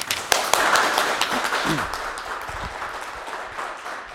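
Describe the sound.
An audience applauds to welcome a professor as a speaker, with dense, sustained clapping that starts strong and slowly eases off.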